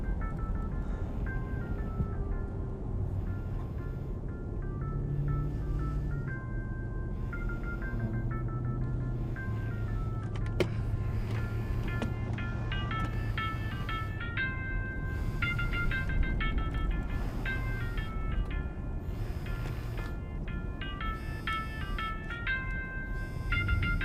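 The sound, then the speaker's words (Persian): Mobile phone ringtone playing a bright electronic melody, its short tune phrases repeating many times over a low steady hum. “گوشی من نیست. موبایل مامانه؟”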